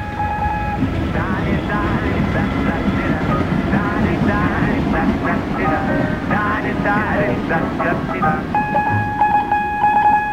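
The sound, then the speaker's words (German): An S-Bahn commuter train passes outside a house, making a steady rumbling roar with high, squealing metallic tones running through it for about ten seconds. “Die S-Bahn vor dem Haus.”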